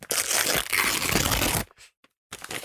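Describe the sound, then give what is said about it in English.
A golden envelope is torn open with loud crinkling and ripping paper for over a second, then a brief hush and a few small rustles. “Hang on, just to open the envelope here.”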